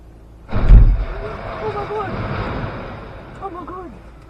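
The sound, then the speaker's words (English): House explosion in London captured on a car dash cam: a sudden loud, low boom swells into a heavy rumble that slowly fades, with a voice heard after the blast. “A house actually blew up and caught fire. And here it is from somebody's dash cam.”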